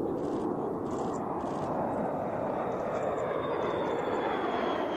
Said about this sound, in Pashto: بي 52 بمبار چې د اټمي وسله وړلو توان لري د اوسان هوایي اډې د پاسه په الوت کولو لیدل شوې دي.